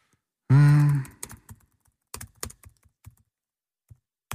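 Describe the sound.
Typing on a computer keyboard follows a brief hummed voice sound. Irregular key clicks come in small clusters with gaps between them, some sharper and louder than others.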